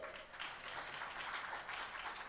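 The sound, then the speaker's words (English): Faint audience applause at a church gathering, a steady wash of many hands clapping together, even in level throughout with no distinct individual claps standing out. “Yes, you can clap for her. She deserves it.”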